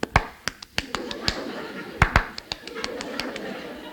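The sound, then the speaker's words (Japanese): A performer pats their own face as if dabbing powder from a compact: many quick, sharp, irregular smacks over a low background murmur. “ハンドバッグからコンパクトを出してやってます、何が気に食わないのか一生懸命自分の顔を叩いちゃって”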